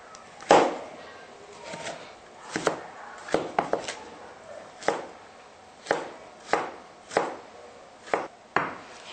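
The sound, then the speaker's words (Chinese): A kitchen knife chops red carrots on a cutting board: a dozen or so sharp, crisp strikes, a few quick ones bunched together early, then evenly spaced, loud, with no voices. “现在我们切红颜色的胡萝卜。”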